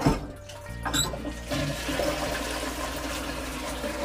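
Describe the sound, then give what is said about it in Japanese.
A toilet flushes with a loud, steady rush of water that swirls and gurgles throughout without easing off. “ちょっと一回トイレ流しますね”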